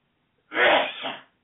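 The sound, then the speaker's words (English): A single loud, gigantic sneeze bursts out suddenly and then tails off briefly, heard alone against silence. “Excuse me, I got a gigantic sneeze.”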